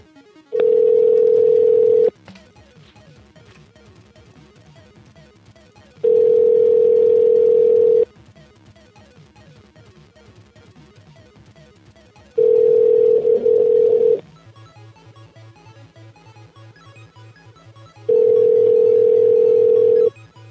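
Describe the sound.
Ringback tone of an outgoing phone call placed live on a radio phone-in. There are four long, steady, pitched tone bursts, each lasting about two seconds, separated by quiet gaps of roughly four seconds.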